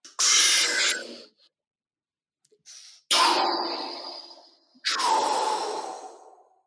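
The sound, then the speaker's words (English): A big deep breath, heard as a few long, loud rushes of air drawn in and let out, separated by short silent pauses, with no talking. “And look, it would be an honor to do one deep breath with you now. It would be an honor to do a big deep breath with you.”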